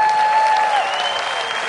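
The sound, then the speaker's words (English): Applause from a church audience during a morning service: dense, even hand clapping stays loud and steady for the whole clip. “Give her a hand clap.”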